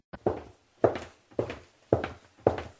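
Footsteps climbing stairs up to a bedroom: five dull, evenly spaced thuds in a steady walking rhythm, heard alone with no talk.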